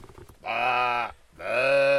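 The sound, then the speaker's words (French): A person imitates a sheep bleating like a ewe: two sustained, nasal, strongly voiced bleats with a short pause between them, loud and wavering slightly in pitch. “Tu fais pas aussi bien la brebis.”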